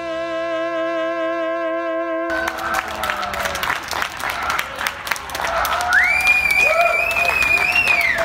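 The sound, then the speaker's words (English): Clapping, cheering and pots and pans banging across New York City in spring to celebrate essential workers. A sustained harmonic tone opens it, then a broad crowd din of claps and shouts takes over, with a long whistle gliding above it later. “This was the sound of New York City in the spring, clapping and pots and pans banging in celebration of what we've come to call essential workers.”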